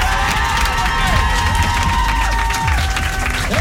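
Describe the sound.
A studio audience at a live evening show stands and cheers for a guest, a loud, dense roar of clapping, shouts and whoops that stays at full strength throughout.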